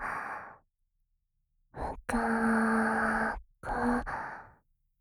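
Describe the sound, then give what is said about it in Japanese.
Deep breathing with sighs: a few separate breaths, the longest one carrying a faint voiced tone as the air is let out. There is no speech. “だったら深呼吸して落ち着こうか。”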